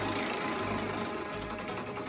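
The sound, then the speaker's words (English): A prize wheel is spun to pick an NBA team, giving a dense, steady whirring rattle with rapid ticking that carries evenly through the whole moment, with no talk over it. “Andrew, let's spin that wheel.”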